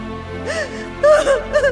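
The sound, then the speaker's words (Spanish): A woman bursts into tears as a mother hearing grievous news about her baby: a few halting, wailing sobs with wavering pitch and catching gasps, loud and alone. “rompe a llorar”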